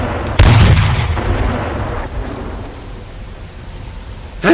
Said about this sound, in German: Panzer. Shells. Wir gucken mal. Ich richte mal die Kanone auf 1000. Ob wir den einen hier vorne treffen können.